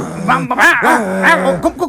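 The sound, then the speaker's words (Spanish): Angry small dog barking and growling: short, snarling barks with wavering, rising and falling pitch and throaty growls between them, loud and alone over a brief stretch. “Mira, el perrito está muy rabioso.”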